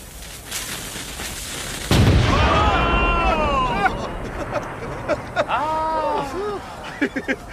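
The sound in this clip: Fine brass cannons fire on command in a show for a ruler: one loud, deep booming blast, followed by shouting voices and a few sharper pops.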